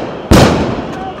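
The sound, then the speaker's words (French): A single sudden, loud blast from a firecracker, stun grenade or firework during a chaotic riot with riot police, with its roar fading slowly over steady background noise. “Et au final, un immense chaos, pétards, grenades assourdissantes et feux d'artifice.”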